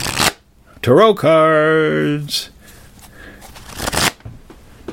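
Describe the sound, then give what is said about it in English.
Tarot cards from a 78-card deck being shuffled, with a few short, broad rustling bursts and a sustained, wavering voice-like tone between them. “Tarot cards. I like tarot cards. 78 cards, that'll tell you anything you'd like to know.”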